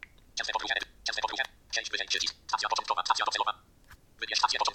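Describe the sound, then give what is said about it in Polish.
Someone types on a computer keyboard and clicks buttons in a travel-listing app. The clicks come in several quick bursts of rapid keystrokes separated by short pauses. “I kiedy klikniemy ten przycisk, wpisujemy”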